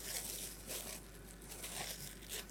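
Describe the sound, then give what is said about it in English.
Pastry crust for a galette being unwrapped from its wrapping: faint, irregular crinkling and rustling continues throughout, with a few sharper crackles. “Unwrap my pastry crust.”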